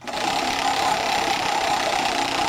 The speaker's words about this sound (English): I will do the honors this time and spin the wheel, so here we go.